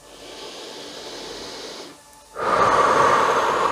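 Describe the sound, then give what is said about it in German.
Breathing in and out together during a guided meditation's closing relaxation: a steady, soft, airy hiss, a brief lull, then a louder, fuller breath that carries on to the end. “Lass uns nun gemeinsam ein- und ausatmen.”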